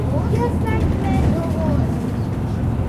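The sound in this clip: Steady engine rumble and road noise inside a moving express bus, heavy in the low end and unbroken throughout, with faint voices in the background.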